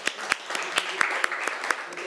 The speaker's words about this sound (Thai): นักเรียนปรบมือให้เพื่อนหน่อย